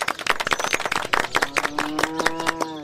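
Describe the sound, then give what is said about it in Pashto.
Villagers at a gathering about a new cultural centre clap their hands in a quick burst of many uneven, sharp claps, fairly loud throughout. “وایم لاسونه ورته وپړکوئ.”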